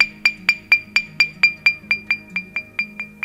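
Bright, glassy clinks from an intact flint stone tapped to test for cracks. More than a dozen even, evenly spaced taps each ring with a clear high tone and fade quickly.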